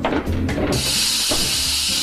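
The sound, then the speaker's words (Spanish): Steam hissing as an oven with a roasting chicken inside is opened: a sudden loud, steady hiss starts partway through and continues unbroken to the end over a low rumble. “¡Al abrir el horno!”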